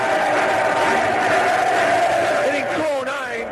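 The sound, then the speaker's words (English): Stadium crowd of Chicago baseball fans singing as a pitcher leaves the mound: a loud, sustained wall of massed voices holding a melody throughout, with a few individual voices rising and bending near the end. “as he steps off the mound, the Chicago fans serenade him off the pitch.”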